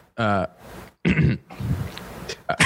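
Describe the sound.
Throat clearing voiced by a storyteller acting out a character during a fantasy roleplaying game: a few gruff, rasping bursts separated by short pauses, with a harsher scrape at the end.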